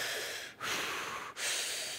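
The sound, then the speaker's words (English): Loud, heavy breathing as someone hyperventilates with huge breaths before holding their breath; a continuous airy rush broken by two brief pauses between breaths. “every time you take a breath like that, your lungs expand a little bit further.”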